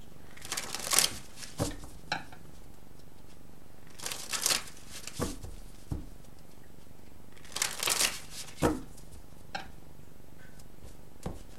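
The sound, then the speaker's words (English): Tarot cards being shuffled and drawn: three main rustling, riffling bursts of shuffling spaced a few seconds apart, with small ticks and card snaps between them. “All right, so let's get some cards. So one card in the position of what you're meant to stop doing or not do, one card in the position of what you're meant to do or start doing or keep doing, and then one card what you can look forward to regardless. So let's just get the cards drawn, Virgo.”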